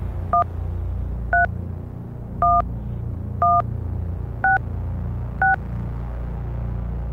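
Telephone keypad DTMF dialing tones: six short two-tone beeps, evenly spaced about a second apart, each a clean steady pitch over a low background hum.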